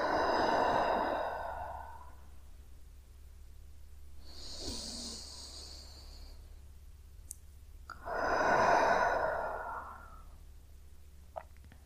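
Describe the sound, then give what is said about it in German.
Deep breaths drawn in through the nose and let out through the mouth during a guided relaxation meditation: three slow, soft breath sounds with gaps between them, the middle one thinner and hissier, with no talking. “Und nimm noch einmal ein paar tiefe Atemzüge durch die Nase ein Und durch den Mund wieder aus.”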